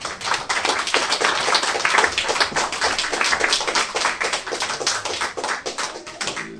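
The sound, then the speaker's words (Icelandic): Audience applause for the vote counters at a meeting: dense, steady clapping from many hands, loud and sustained throughout with no voices heard. “Núna hefur talningafólki lokið störfum og það stóðu sér náttúrulega með fríði og ég vil byrja ykkur að gefa þeim gott klapp.”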